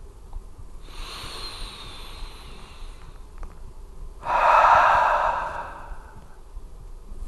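A deep breath during a guided meditation: a long, soft inhale, a pause, then a louder, breathy exhale that slowly fades.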